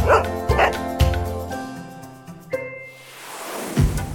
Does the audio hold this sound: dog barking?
yes